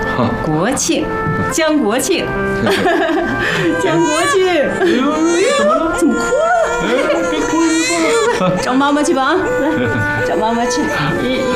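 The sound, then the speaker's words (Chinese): Infant boy crying at length, a continuous wavering wail with sobbing breaks and shifting pitch that stays loud throughout while an adult tries to soothe him. “哎呦， 怎么哭了？别哭，别哭了。”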